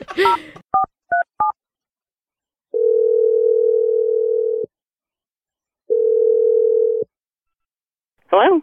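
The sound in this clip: Telephone dialing a number: a few quick, clipped keypad tones, then two long, steady ringing tones separated by a silent gap, with a brief voice cutting in at the very end.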